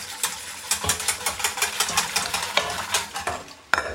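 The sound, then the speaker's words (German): A spoon stirs lukewarm milk warming in a pot on the stove, giving many quick, rhythmic scraping strokes at an even pace. The stirring is fairly loud and heard alone, with no talk. “Wollen wir doch nochmal nach der Milch gucken. Die wird, oh, schon lauwarm. Mal ein bisschen rühren, weil Milch, das wissen wir ja alle, die brennt gerne an.”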